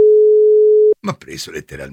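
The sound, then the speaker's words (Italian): Telephone busy signal after a number is redialed: one steady, clear tone lasting about a second that stops abruptly, then a voice speaks. “Riprovo a fare il numero.”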